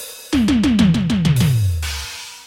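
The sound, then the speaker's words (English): A vintage Boss DR-220A drum machine plays a fast fill of synthetic tom hits, each dropping in pitch, stepping lower across the run before a bright, noisy cymbal-like crash closes it. The hits are loud and clipped, with no talk. “So I whipped up a drum patch called the Boss DR220A, which was a vintage drum machine, and it sounds like this.”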